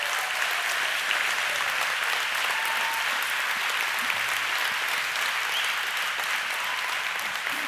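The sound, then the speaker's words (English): Audience applause: a steady, dense wash of clapping hands that holds at an even, fairly loud level throughout with no break. “thank you, Mom, back there for starting that round of applause.”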